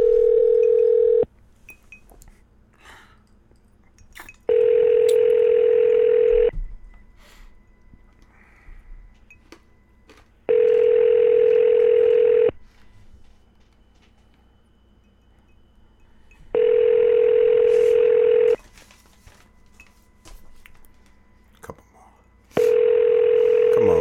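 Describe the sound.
A telephone line rings while a call is being connected: five loud, steady ringing tones, each about two seconds long, separated by roughly four-second silences in an even rhythm.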